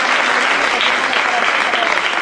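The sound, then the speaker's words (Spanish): Loud audience applause fills the whole stretch, a thick, continuous patter of many people clapping that stays strong and even from start to finish. “Porque un aplauso para vosotros.”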